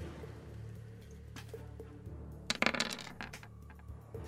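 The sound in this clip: Dice clattering across a table during a tabletop role-playing game: a short burst of sharp, rattling clicks that quickly settles, with a quiet background on either side.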